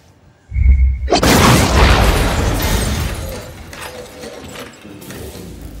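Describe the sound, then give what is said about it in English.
A sci-fi photon blast energy effect: a low boom followed by a bright, crackling burst that swells and then slowly decays over several seconds. “That's a photon blast. And? A Skrull cannot do that.”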